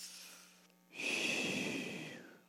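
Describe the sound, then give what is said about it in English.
A single long, deep breath is drawn in, a loud airy rush that rises sharply, holds for over a second, then tapers away. “Take a deep breath.”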